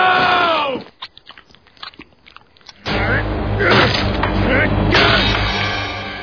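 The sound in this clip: Chewing and biting from cartoon character Homer Simpson as he eats, a run of short crunchy clicks and bites, then a much louder, dense burst of sound that continues to the end.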